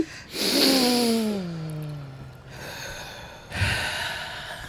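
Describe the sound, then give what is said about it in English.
A person takes a deep, audible breath and lets it out in a long voiced sigh that drops in pitch, followed by another shorter breath. “Okay. I'm about to breathe.”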